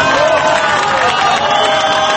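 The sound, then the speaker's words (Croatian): Rescuers and gathered families cheer and applaud as the first Chilean miner emerges from the rescue capsule. Loud, continuous crowd noise and clapping run under a sustained, wailing mine siren, with voices mixed in. “Florencia Valos je prvi izašao iz kapsule koja je prešla put od 700 metara. Uz zvuk rudarske sirene, pljesak spasilaca i okupljenih članova porodica”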